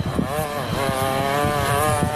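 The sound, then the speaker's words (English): A weed whacker runs with a steady, high, buzzing engine whine rich in harmonics, its pitch wavering slightly as it cuts without pause through the whole clip. “What does that sound like to you? A lawnmower or a weed whacker? Okay, continue. It's actually a weed whacker.”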